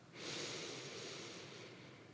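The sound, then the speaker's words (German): A long breath drawn in through the nose: a steady, airy hiss that swells quickly and holds for about two seconds before easing slightly, with no talk. “Das letzte Mal wieder einatmen durch die Nase.”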